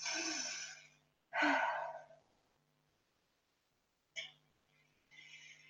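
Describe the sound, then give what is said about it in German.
Deep breath in and out during a guided relaxation: a long, airy inhale followed by a stronger breathy exhale, then softer breaths later, all quiet over a faint low steady hum. “Dann atme einmal tief ein und aus.”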